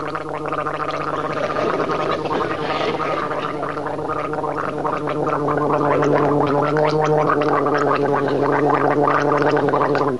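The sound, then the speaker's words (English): A person gargles water, making a continuous bubbling, rattling throat sound with a fast rhythmic flutter that stays loud and steady for about ten seconds. “That's a neat sound you're making. How do you do it? I'm gargling.”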